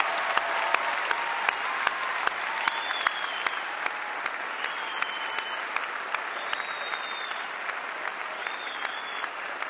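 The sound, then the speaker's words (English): University of Utah class of 2014 graduates applaud themselves at their commencement, a dense, steady roar of many hands clapping with a few high whistles rising above it. “Now give yourselves a hand.”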